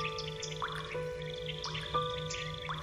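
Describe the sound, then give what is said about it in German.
Water dripping into a house, a few soft, bright plinks with a slight upward pitch scattered over a steady, sustained musical tone bed. “Tropf, Tropf, Tropf macht es, als du angestrengt nachdenkst.”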